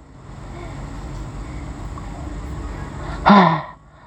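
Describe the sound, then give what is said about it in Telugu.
After holding the nose and mouth shut, a person releases one sharp, loud gasping breath near the end, following a low steady background hum, then the sound drops away. “మా ఫ్రెండ్కి ఎంత ఆయాసం వచ్చేస్తుందో.”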